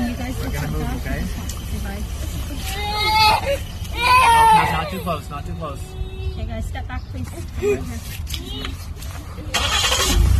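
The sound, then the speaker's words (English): A vehicle engine starts and runs as a father is taken away by police, its low rumbling drone steady beneath several people talking throughout. “They start the vehicle and haul Daddy away”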